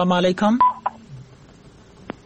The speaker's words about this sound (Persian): تماسشان از دست دادیم، یک تماس دیگه هم میگیریم.